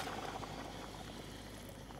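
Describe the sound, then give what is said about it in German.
Water pours into a cooking pot being filled for boiling Tafelspitz beef, a steady, dense rushing splash that holds evenly for the whole two seconds with no voices over it. “Und jetzt holen wir uns ein bisschen Wasser dazu. Ja. Genau, ja. Das kannst du dann noch gleich einfüllen. Ganz. Einfach rein, jawohl.”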